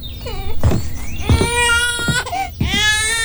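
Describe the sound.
A baby cries without stopping while being soothed at home, giving a few loud, high wailing cries in quick succession with short catches of breath between them.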